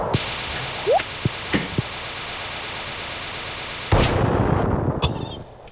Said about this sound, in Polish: Wyobrażacie sobie czyszczenie farmy za pomocą bomby? No faktycznie. Właśnie poszło z dymem chwasty i drzewa.